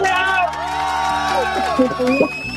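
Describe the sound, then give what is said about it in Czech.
Many people's voices cheer and call out together behind a caller phoning a radio station during a celebration. The overlapping, excited voices stay loud and continuous. “To je radosti, vás tam je teda hodně, poslouchám tam hlasy.”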